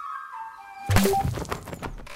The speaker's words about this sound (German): stell dir vor, jemand hat gerade eine Wasserbombe nach mir geworfen, direkt vor unserem Haus.